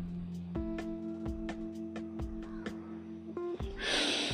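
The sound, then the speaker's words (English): A breathy inhalation taken in preparation for Bhramari breathing practice. It comes near the end as a short, rushing intake of air, after a stretch of steady tonal sound. “We will practice something. Practice something means we'll do Brahmari first. Take your inhale.”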